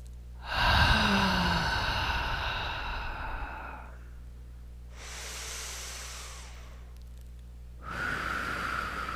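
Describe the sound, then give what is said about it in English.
Slow deep breathing in a guided relaxation exercise, drawn in through the nose and released through the mouth: a few long, soft, airy breaths, the first a fuller sighing exhale, with no talk. “I encourage taking a breath in through your nose and out through your mouth.”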